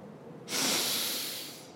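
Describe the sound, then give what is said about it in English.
A slow inhale through the nose during a calming bubble-breathing exercise: one steady, breathy hiss lasting just over a second, heard alone. “First, let's breathe in slowly through our noses.”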